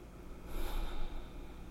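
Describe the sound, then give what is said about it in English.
A deep breath drawn in and let out, a soft, airy rush that swells in the middle and then eases off, with no talking. “I like that breath. I like that breath. Hold it.”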